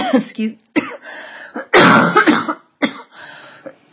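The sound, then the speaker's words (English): A series of harsh coughs and throat-clearing rasps, caused by a small piece of nut lodged in the throat. The bursts come in uneven, repeated spurts, with the loudest and longest near the middle. “excuse me, that little piece of nut is still somewhere in my throat.”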